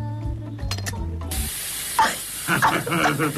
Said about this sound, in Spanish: Armas químicas, flaquita, la última moda de Medio Oriente. Ya la estás disfrutando acá también. Tratá de no tragar mucho humo.